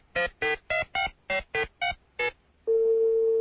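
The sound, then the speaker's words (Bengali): Telephone tones sound while a call is being connected: eight short electronic beeps in quick succession, then a steady, unbroken line tone. “আমরা নজরুল ইসলামকে ফোনে connect করবার জন্য চেষ্টা করছি।”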